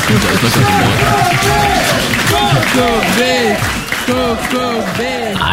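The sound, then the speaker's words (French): Crowd applause and cheering from an audience thanking a performer, sustained clapping and crowd noise beneath loud talking voices. “Applaudissez que Kokobé.”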